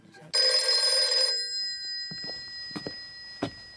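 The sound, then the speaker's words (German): A telephone rings at night in one loud, bright burst whose tone lingers and fades, followed by a few soft thuds. “Es war 2 Uhr nachts und wieder ging das Telefon.”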